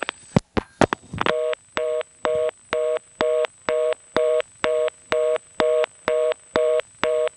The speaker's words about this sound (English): Again, this reorder came on because I flashed.